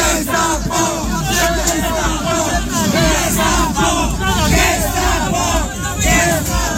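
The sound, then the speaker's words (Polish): About thirty protesters trying to block the eviction of a woman and her child shout angrily at a bailiff, their loud overlapping chants and yells forming a continuous wall of raised voices. “Osoby te próbowały zablokować eksmisję pani Sandry i jej dziecka. Z ust demonstrantów można było usłyszeć okrzyki pod adresem komornika.”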